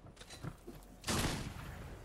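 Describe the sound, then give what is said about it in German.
Gunfire in the video game Fortnite Zone Wars: a dense burst of rapid shots starts partway through and keeps going, after a few fainter pops earlier. “Komm, schieß ihn runter, schieß ihn runter.”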